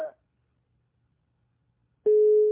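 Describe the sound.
Busy tone after a caller's phone line is cut off during a call-in program: a brief tone fragment, a stretch of silence, then a steady, loud beep.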